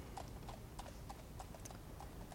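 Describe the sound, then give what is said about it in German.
Hooves of a horse pulling a horse-drawn tram clip-clop in a steady, even rhythm. Many brisk strikes sound over a constant low background rumble. “Ich muss hier auf meine Pferdebahn warten.”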